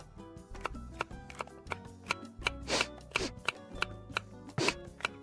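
Sharp knife chopping onions, a quick, uneven run of many crisp knocks with no talk over them.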